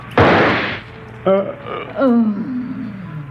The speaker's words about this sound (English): The bandit's single shot killed both his parents.